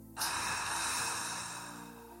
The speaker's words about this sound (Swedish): Ta några djupa och långsamma andetag. In. Och ut.